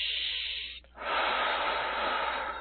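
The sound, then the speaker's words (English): Deep breathing during a guided breathing exercise: one slow, airy inhale, a brief pause, then a long, steady exhale with a soft hiss that holds its strength almost to the end. “So just kind of take a deep breath in and just breathe out. And just another breath in.”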